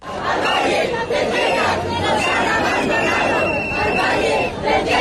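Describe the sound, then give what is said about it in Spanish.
A protest crowd in central Madrid shouts and chants over the Ávila wildfire and the lack of prevention in the Tiétar Valley. The dense, loud roar of many voices holds steady throughout. “Precisamente el incendio de Ávila deja este sonido en el centro de Madrid.”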